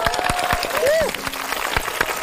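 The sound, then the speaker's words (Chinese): Applause greeting a university campus band from Hebei University of Economics and Business as it is introduced at a show: brisk, steady clapping with voices heard over it. “掌声来也。”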